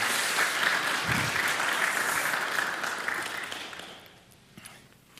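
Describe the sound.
Congregation applause at a church service welcoming a couple back: dense, steady clapping that holds for a few seconds and then gradually fades away.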